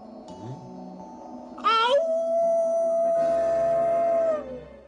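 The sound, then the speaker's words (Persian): A long, wolf-like howl in a children's song about a hungry wolf in the snow swells up, then holds one steady wailing note for about three seconds over music before fading out. “گرگ بلا گوشاش بلند، زبونش دراز، زوزه میکشه با دهن باز.”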